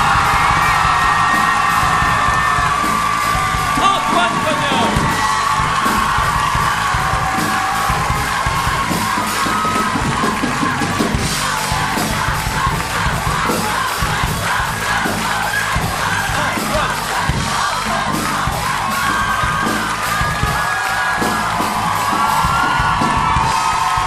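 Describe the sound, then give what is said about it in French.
A crowd at a live concert gives an ovation, a dense roar of cheering, whoops and yells that stays loud and steady for the whole stretch without a break. “je vais demander l'appeler sur scène et de faire une véritable ovation à Antoine Cognam.”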